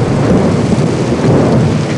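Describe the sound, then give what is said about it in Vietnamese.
Heavy rain pours down with rumbling thunder beneath it, a dense, loud, unbroken roar that holds steady from start to finish. “Mưa sao mà to quá à?”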